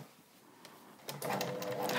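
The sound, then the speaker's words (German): A sewing machine stitches the final zigzag seam. It is quiet at first, then a steady, busy mechanical whirr and rattle starts about halfway through and runs to the end at moderate volume. “ich nähe jetzt im Grunde die letzte Naht. Jetzt gucken wir mal, ob der Zickzack toll ist.”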